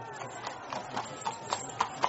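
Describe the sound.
Hooves of a horse pulling a carriage clip-clop in a steady, quick rhythm. The many even beats grow sharper toward the end over a soft, low rumble.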